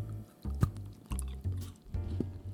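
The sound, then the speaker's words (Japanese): Chewing of Meiji Galbo bitter dark chocolate, with a few soft crunchy bites and mouth sounds in separate bursts. The chewing is faint and heard alone, without talk. “明治ガルボ。うん。うん。これはほろ苦ブラックです。はい。じゃあ行ってみます本当つるんとしてるんですつるんとしてるね、うんいただきます”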